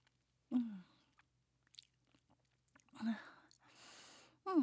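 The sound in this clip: Someone chewing while eating: a few faint, wet bites and mouth noises separated by quiet pauses, with brief breathy sounds in between.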